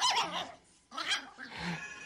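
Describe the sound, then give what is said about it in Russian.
A tiny dog barks excitedly while running across an oilcloth-covered dining table, giving two bursts of shrill, yappy barking separated by a short pause. “Собака бежала по обеденному столу, покрытому клеенкой, и лаяла.”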